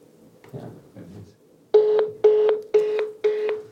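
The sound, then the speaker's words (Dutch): A telephone number being dialed: soft handling noises, then five loud, evenly spaced steady tones, each a short beep with a clear pitch, repeating in a regular rhythm. “Dus ik ga nu bellen en ik hoop dat hij opneemt.”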